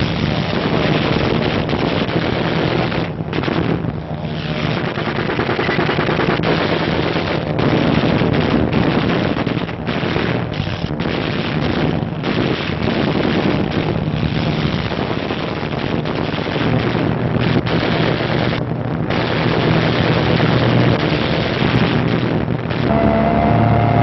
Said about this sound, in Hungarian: Német Messerschmitt vadászgép ellenséges repülőt vesz üldözőbe, mely kigyullad és lezuhan.